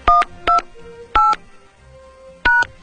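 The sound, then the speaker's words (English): Telephone keypad DTMF tones dialing a voicemail password: four short, crisp dual-pitch beeps in an uneven rhythm, with quiet gaps between them. “Please dial your password and press pound.”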